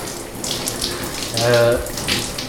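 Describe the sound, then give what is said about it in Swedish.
Water runs from a tap as hands are washed in a ritual ablution room, a steady splashing hiss that continues through the whole clip and swells slightly midway. “Och så börjar man med att till exempel tvätta händerna.”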